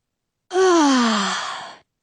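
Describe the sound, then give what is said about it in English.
A person gasping for air after nearly drowning makes a single heavy, voiced breath. The sigh-like gasp starts strong and falls steadily in pitch over about a second before trailing off. “Air. I'm breathing air. Gulps and gulps of air.”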